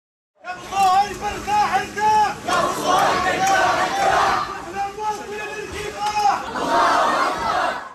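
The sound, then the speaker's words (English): Crowd in a funeral procession moving through Gaza City, many voices chanting and shouting together in a loud, continuous mass of sound that rises and falls in waves. “That is the sound of a funeral procession moving through Gaza City today.”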